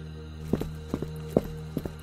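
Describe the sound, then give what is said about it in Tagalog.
Footsteps hurry up the stairs to the second floor of a house: a steady run of quick, muffled thuds, each footfall landing as a short doubled knock at an even pace. “Mabilis akong umakyat ng second floor para tingnan kung ano ang nangyari sa itaas.”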